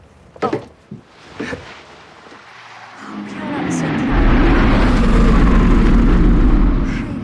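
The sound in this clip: A car engine running while a car is tried out: a couple of sharp knocks first, then the engine roars up and holds a loud, steady, low drone.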